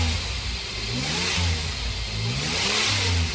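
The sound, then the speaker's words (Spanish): A car's engine runs and revs after a breakdown has been repaired; the car has a rotary engine. The engine makes a loud, continuous roar whose pitch wavers up and down, with no voices. “encontró el daño que tenía el auto y lo pudo arrancar.”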